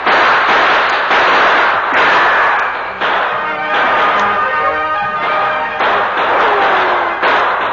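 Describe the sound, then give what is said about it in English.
Gunshots traded in a twilight gunfight between outlaws and pursuers firing from cover among trees, with many loud sharp cracks and blasts in an uneven rhythm and no voices. “the Lone Ranger and Tonto exchanged shots with the two remaining outlaws”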